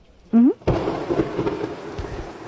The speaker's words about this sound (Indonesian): Ya hujan.